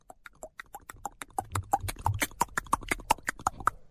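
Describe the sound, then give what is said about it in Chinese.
Rapid clip-clop of horse hoofbeats, many quick, sharp beats in a steady galloping rhythm that grow louder at first and then stay strong. “马蹄声，这马蹄声是由远而近。”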